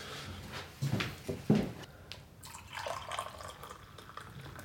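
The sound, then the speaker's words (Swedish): Coffee is poured into a cup: a few soft knocks and clinks come first, then a faint, steady liquid trickle with no voices. “Ska jag fylla på kaffe?”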